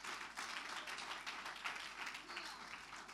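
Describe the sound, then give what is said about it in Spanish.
A church audience applauding in praise during a worship service, a dense, steady patter of many hands clapping that stays fairly faint throughout. “Fuerte ese aplauso de alabanza al Señor.”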